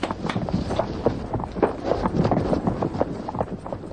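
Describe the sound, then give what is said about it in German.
Two horses are ridden away, their hooves clopping in a quick, uneven patter of many overlapping beats. The hoofbeats carry on steadily throughout, with no voices. “Komm, wir reiten hin und sehen mal nach.”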